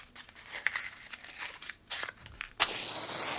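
A large match is struck to light an Advent candle on an Advent wreath: soft rustling and crinkling come first, then one sharp scrape and a steady flaring hiss.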